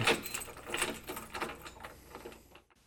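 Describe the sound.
A lock being fastened on a box used as a makeshift prison: metallic rattling and clanking in several sharp bursts at an uneven rhythm, each strongest at the start and tapering off before a brief quiet close.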